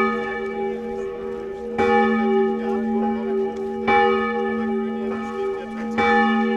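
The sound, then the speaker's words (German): Church bells ringing at the Berlin Wall memorial on Bernauer Street in Berlin: loud, sustained, harmonically rich tones, with fresh strikes about every two seconds renewing the overlapping ring. “An der Mauergedenkstätte an der Bernauer Straße in Berlin läuten die Glocken.”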